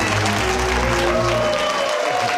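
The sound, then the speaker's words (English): A studio audience applauds with steady, continuous clapping that fills the short stretch at a moderate level and ends abruptly. “Hey, you two really have got our studio audience going.”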